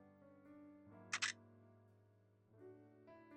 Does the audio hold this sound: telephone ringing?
no

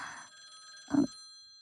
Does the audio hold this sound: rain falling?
no

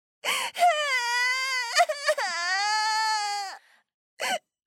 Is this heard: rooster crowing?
no

